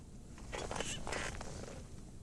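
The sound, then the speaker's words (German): Sleep-study electrodes being peeled off a person, heard as faint rasping, tearing scrapes in two short bursts close together, with no talk over them. “So, dann würde ich Ihnen jetzt erstmal die Elektroden entfernen.”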